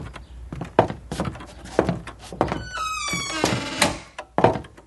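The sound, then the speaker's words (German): A house's front door is opened from inside with several dull thumps and knocks and a squeaky creak partway through, followed by a few more soft knocks. “Kaum hatten sie die oberste Stufe zum Hauseingang erreicht, wurde die Tür auch schon von innen geöffnet.”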